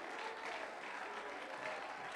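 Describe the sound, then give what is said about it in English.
Congregation clapping hands during a church service, a dense steady patter of many hands at moderate level with no pauses, carrying on throughout without any talking heard. “Clap your hands and shout to the Lord.”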